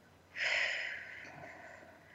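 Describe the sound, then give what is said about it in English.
A deep belly breath drawn in, one long airy breath that starts after a brief quiet moment, then slowly fades over about a second, soft and heard on its own. “Take one more deep breath. Big belly breath.”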